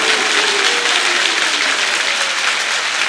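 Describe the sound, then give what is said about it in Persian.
Audience clapping at a religious gathering in honour of Imam Ali: a dense, steady wash of applause from many hands that holds at an even level for about three seconds, with no voices standing out. “کف بزن برا مولا.”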